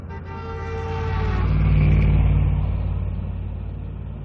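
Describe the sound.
A bus engine runs while the bus is stopped, giving a low, steady rumble that swells gradually and then eases back, with no voices.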